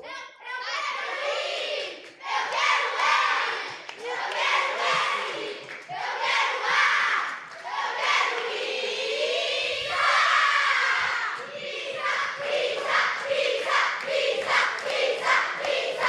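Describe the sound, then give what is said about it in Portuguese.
Supporters of two schools shout their battle cry. A dense crowd of young voices yells and chants loudly and continuously, with rising screams and no pause. “o grito, o grito, o grito. O grito de guerra, vai.”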